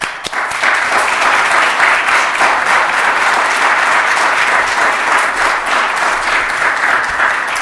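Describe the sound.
Applause from an audience welcoming a speaker to a lecture event: many hands clap in a dense, loud, sustained wash that starts almost at once and holds steady for several seconds.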